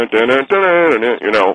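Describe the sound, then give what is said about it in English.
A voice humming the James Bond theme music, imitating the tune in a few sustained, wordless phrases whose pitch bends and shifts, sounding thin and band-limited. “They started going, humming it.”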